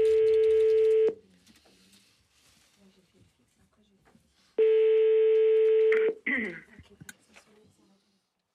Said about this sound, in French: C'est parti, ça devrait sonner dans une seconde. Merci. Ça sonne.